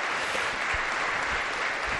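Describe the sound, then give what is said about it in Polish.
Steady applause for a speaker: uniform, dense clapping holds at a moderate level across two seconds, without distinct individual claps or voices. “Wielkie brawa.”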